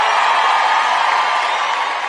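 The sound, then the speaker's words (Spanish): Crowd cheering for singer Pablo Alborán: a steady, fairly loud roar of many voices that holds level through the short stretch without distinct claps or breaks. “aplauso para Pablo Alborán.”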